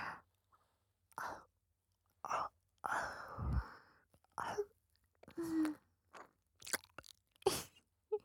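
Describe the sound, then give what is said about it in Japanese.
Gentle ear nibbling and soft biting in close-up ASMR, heard as many short, quiet bursts of wet mouth and chewing-like crunches with breathy sighs between them, separated by brief silences. “大丈夫。本当に食べたりしないよ。甘噛みしてるだけで楽しい。”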